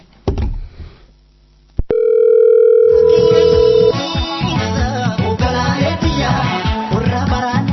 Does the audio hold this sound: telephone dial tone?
yes